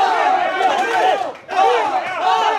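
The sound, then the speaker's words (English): A crowd in the bleachers of a cockfighting arena shouts and cheers on the birds around a small pit, with a loud, continuous roar of many voices that dips briefly midway before swelling again. “There's a little pit in the middle of the arena, and it's surrounded by bleachers. It looks like a miniature stadium, and people are cheering for their birds,”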